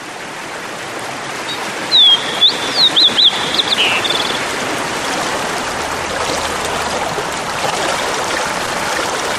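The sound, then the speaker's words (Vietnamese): A stream of water rushes downhill with a steady, even hiss throughout. A short cluster of high bird chirps sounds early on. “Thùy không buồn khi bản nhạc mừng Thùy hôm nay chỉ có dòng suối ào ào tuôn nước về xuôi.”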